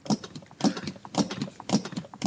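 Defibrillator electrode pads are unpacked from their packaging, producing faint, repeated crinkling and rustling bursts at an uneven rhythm.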